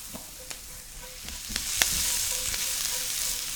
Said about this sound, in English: So Brussels sprouts are going into the pan.